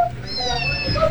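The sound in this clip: A kitten gives one drawn-out, high, tonal meow lasting about a second, loud and clear with no talk.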